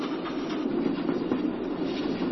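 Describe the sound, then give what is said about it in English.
A train passes with a steady rumbling clatter of rail cars and wheels, loud and even throughout with no pauses, with no voices over it. “Well, now look at that. I've got myself behind this train.”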